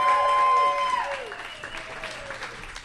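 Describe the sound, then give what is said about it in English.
An audience applauds a comedian with a steady patter of clapping that begins after a voice at the start and continues at moderate volume until the end. “How about a big warm round of applause for Robin Hatch, everybody?”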